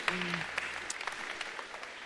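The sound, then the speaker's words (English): Faint audience applause as people are called forward in a church gathering, a steady soft patter of clapping that runs throughout. “I find it very encouraging to come forward with applause.”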